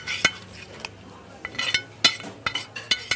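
Empty plastic food containers clatter onto a stainless steel counter in a restaurant kitchen as leftovers are portioned, giving many sharp, irregular clinks and knocks of varying loudness.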